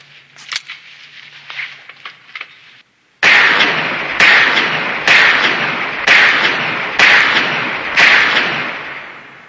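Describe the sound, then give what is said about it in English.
Gunshots from a .44 revolver hand cannon in a film scene: six loud, sharp bangs about a second apart, each with a ringing, decaying tail, following a few fainter clicks and thuds. “Hits his hand cannon. That is Dirty Harry's hand cannon. That's a clip from Magnum Force.”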